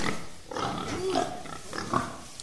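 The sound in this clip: A person imitates a pig with the voice, making a few rough, throaty snorts and grunts at moderate loudness, with no clear words.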